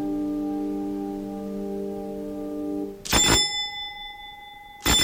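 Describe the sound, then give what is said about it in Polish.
A hallway doorbell rings twice in bright metallic bursts. The rings are sharp and well separated, and they follow a sustained, steady droning tone. “Dzwonek zadźwięczał w przedpokoju z gwałtownością.”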